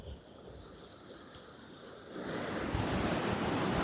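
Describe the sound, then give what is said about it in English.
Strong ocean waves breaking on a beach. A steady rushing wash swells partway through into a louder, broad roar of surf, with no voices. “strong waves. You are not supposed to swim here due to both the waves and the sharks.”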